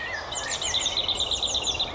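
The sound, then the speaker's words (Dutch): A Eurasian wren sings a quick, high-pitched run of bright repeated notes and trills for about two seconds. A lower whistle from a common blackbird sounds faintly behind it at the start. “Winterkoning. Merel op de achtergrond.”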